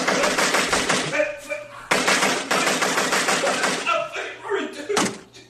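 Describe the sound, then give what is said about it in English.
Gunshots as someone is shot at, fired in rapid volleys of loud cracks. Two long sustained bursts are each broken by sharp impacts, with brief gaps between the flurries. “You like that? You like getting shot? Do you like getting shot? Do you want me to stop shooting you?”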